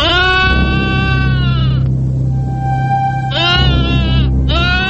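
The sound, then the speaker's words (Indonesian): Goat bleating, loud, drawn-out and strongly tonal: one long bleat, a pause over a low steady hum, then two shorter bleats close together, the last cut off. “Nah, dia mengembik lagi. Kalau tidak salah dengar, suara itu berasal dari arah sana.”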